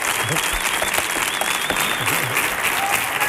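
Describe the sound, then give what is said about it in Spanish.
Audience applause for a performer after a live song, dense steady clapping throughout with a voice speaking over it. “Fuerte el aplauso para Pedro Espinosa, que luego va a venir otra vez para acompañarnos.”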